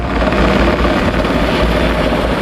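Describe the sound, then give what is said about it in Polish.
Police Black Hawk helicopter loudly roars as it scoops water from a nearby reservoir to fight a forest fire in marshy woodland. The rotor and engine noise stays steady and dense throughout, with no other sounds standing out. “Policyjny śmigłowiec Black Hawk co kilka minut nabiera wody z pobliskiego zalewu i zrzuca ładunek nad płonącym obszarem.”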